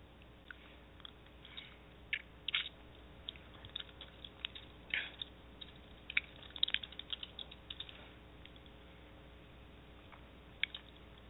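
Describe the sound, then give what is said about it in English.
Keys clatter on a computer keyboard as a search is typed into Google: light, irregular taps come in short bursts with brief pauses, quiet over a faint steady background hum. “So let me go to Google. And type in Astrology 101.”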